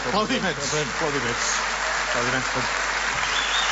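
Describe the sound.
Audience applause at a gala greeting the president: a steady bed of clapping runs throughout while people talk over it.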